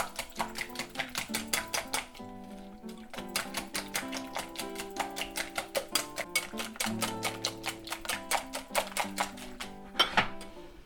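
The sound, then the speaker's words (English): A whisk beats pancake batter of flour in a bowl, making many rapid, evenly spaced clicking ticks against the sides. The rhythm is quiet and steady throughout. “So we're just whisking it up. We haven't put in all the four ounces yet. We're doing it bit at a time.”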